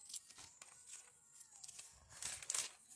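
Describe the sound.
Thin Bible pages being flipped: a few soft, papery rustles and crinkles, very faint and spread over a few seconds, with no one talking.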